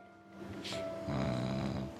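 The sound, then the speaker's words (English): Snoring from people asleep under blankets: a rough, rumbling snore that swells and then holds steady and fairly loud, with a low droning hum under it and no talking. “they're snoring. The snory snore.”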